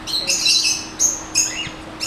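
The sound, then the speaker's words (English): Loud birds chirping and tweeting in repeated bursts of high, bright calls, with short pauses between the bursts. “Those naughty birds are so loud.”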